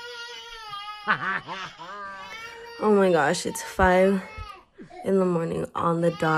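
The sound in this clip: A two-year-old toddler cries at five in the morning, with high-pitched, wavering wails in several bursts. An adult talks between and over the cries.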